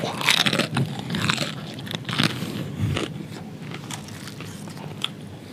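Biting and chewing of a crunchy taquito: many loud, crackling crunches at the start give way to steadier, slightly softer chewing noises, with no talking.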